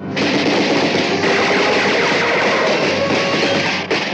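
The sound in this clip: Rapid gunfire in a war scene on an island, a dense, loud, unbroken roar of overlapping shots lasting throughout, with a brief dip just before the end and no voices.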